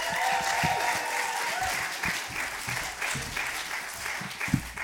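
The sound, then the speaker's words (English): Clapping from an audience at a school students' poetry festival showcase as a young poet is welcomed to the stage, steady moderate applause with a few louder individual claps standing out near the end. “so keep them applause levels around them kind of ranges, that'd be really, really nice.”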